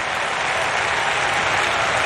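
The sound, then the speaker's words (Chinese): Stadium crowd at the Diamond League athletics meet in Eugene breaks into applause, a loud, dense, unbroken wash of clapping at an even level. “收获了全场的掌声。”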